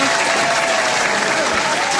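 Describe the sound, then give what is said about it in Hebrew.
Audience applause at the close of a live game show: a dense, steady wash of clapping that runs unbroken for the whole stretch. “רוצים כפיים בשביל לאזן? כן. אוקיי.”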